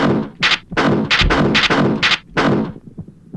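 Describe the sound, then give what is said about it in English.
A gun reloads in a video game, heard as a loud series of sharp mechanical clacks and bursts in quick, uneven succession, trailing off into quieter clicks. “You can reload your gun by pressing it. Enter, like that.”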